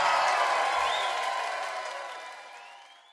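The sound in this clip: A crowd cheers and applauds a singer after a performance, a broad roar with a few whistles that steadily fades out.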